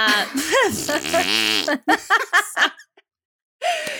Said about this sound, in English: Never thought I would end this on a fart noise.